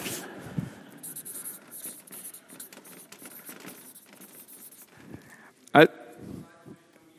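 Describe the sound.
Scratchy strokes of something being written down, a loose run of short scratching sounds beneath talk, with one louder knock near the end.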